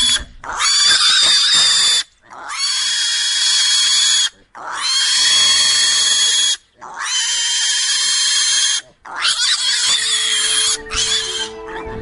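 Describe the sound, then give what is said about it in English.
A pig being picked up squeals in loud, shrill, sustained bursts, screaming in a string of long cries broken only by brief pauses for breath. “This is the sound of a pig being picked up. He's not happy.”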